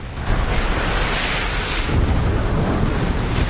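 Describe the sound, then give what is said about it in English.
Sea waves roll and crash onto a rocky shoreline off Cape Verde in hot Sahara wind, a loud continuous roar of surf mixed with buffeting wind noise, with no voices. “Hot winds from the Sahara are whipping the sea into a frenzy. Foreboding dark clouds and waves rolling onto a rocky shoreline.”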